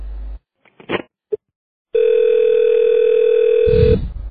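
A steady telephone tone sounds after the other party hangs up. A few short handset clicks and knocks come first, then a single-pitch tone holds for about two seconds before a low rumbling thud at the end.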